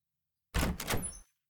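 A sliding door opens in one brief, smooth, rumbling glide lasting under a second, alone, with no voices.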